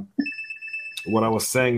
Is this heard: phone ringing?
yes

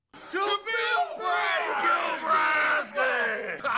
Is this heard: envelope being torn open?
no

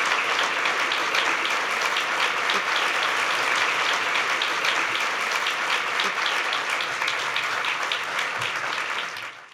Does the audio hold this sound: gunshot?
no

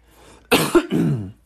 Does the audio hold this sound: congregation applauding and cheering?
no

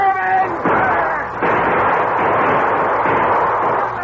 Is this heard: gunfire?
yes

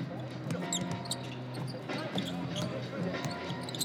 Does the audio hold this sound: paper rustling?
no

